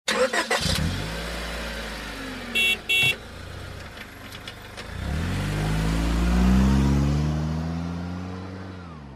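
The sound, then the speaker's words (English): A car engine revs up loudly after a sharp opening burst, its low, throaty drone climbing steadily in pitch as the vehicle accelerates, heard alone with no talk. “So this is a vehicle.”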